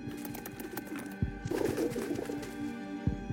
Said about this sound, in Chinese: 那是什么东西？ 好像是只鸽子，长官。